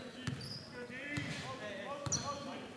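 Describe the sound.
A basketball is dribbled right-handed on a court during a Marvin Ridge versus Piedmont game, giving three faint, dull bounces at an even pace under talk.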